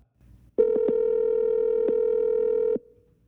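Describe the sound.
Telephone dial tone before a call: a loud, steady, single-pitched hum lasts about two seconds with a few brief clicks over it, then cuts off, leaving faint noise before and after.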